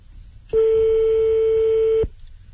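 A telephone tone sounds while a call is dialed to a landline number. It is a single loud, steady, unbroken tone of about one and a half seconds, heard on its own.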